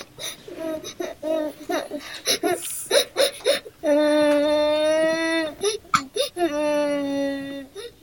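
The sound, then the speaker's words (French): A woman crying and moaning: choked, broken sobs and gasps, then two long, wavering, high-pitched wails of grief. No words are spoken. “La reine se mit à pleurer et à gémir.”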